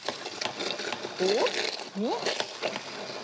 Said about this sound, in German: Und hier habe ich jetzt tatsächlich noch Tiefkühlbeeren im Eisfach gefunden. Man könnte aber auch Beeren nehmen, die vielleicht jetzt nicht mehr, also die nicht schimmelig sind, aber die vielleicht nicht mehr so richtig viel Power haben. Und das hier püriere ich einmal.